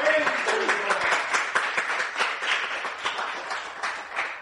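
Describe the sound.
A church audience cheers and applauds during worship, with dense clapping and shouting voices mixed together throughout.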